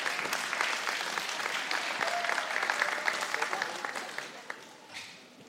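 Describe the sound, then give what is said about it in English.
Audience applause welcoming a speaker to the stage, a bright and busy patter of many hands clapping steadily for about five seconds before tapering off quickly. “So would you please put your hands together for Becca?”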